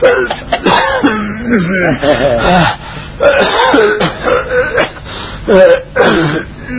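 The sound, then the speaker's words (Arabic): A man's recurring cough, heard as a broken series of rough coughs and throat clearing with voiced, moaning, speech-like tones between the bursts. “إن هو إلا سعال ينتابني من وقت لآخر.”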